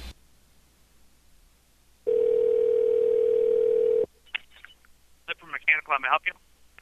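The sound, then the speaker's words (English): Phantom ringing on a telephone line: after a quiet hiss, one steady, unbroken electronic tone sounds for about two seconds and cuts off sharply, then a voice speaks over the line. “See if this does phantom ringing again. It seems like it is.”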